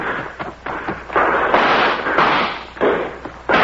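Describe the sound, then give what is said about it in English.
Gunshots ring out in a radio drama shootout as several harsh, loud bursts of noise, some sharp and some drawn out. They come in an irregular rhythm with short gaps between them, and no voices are heard. “she's been shot. Use your rifle, Jim. Use your rifle.”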